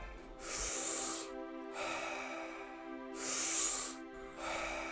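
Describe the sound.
Deep breathing in and out during a guided breathing exercise: a few long, airy breaths, each a broad rush of air, alternating in a slow, even rhythm over a soft, steady drone.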